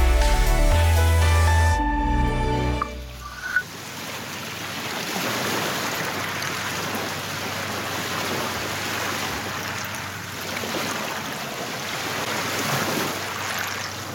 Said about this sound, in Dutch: Golven slaan op een strandje aan de Waal, Millingerwaard.